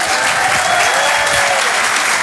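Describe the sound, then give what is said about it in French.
Loud, dense applause from a comedy show audience cheering a comedian. Steady, continuous clapping at full volume from start to finish. “On peut l'applaudir très très fort, Elias Zoglani. Bravo Elias.”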